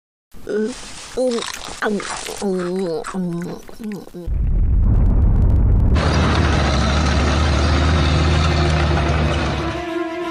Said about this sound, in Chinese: 我这大炮连宇宙飞船都能轰下来。